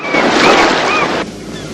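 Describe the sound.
Ocean waves by the sea wash in a steady, broad rushing roar that abruptly drops to a quieter hiss near the end.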